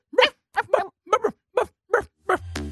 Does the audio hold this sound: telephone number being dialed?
no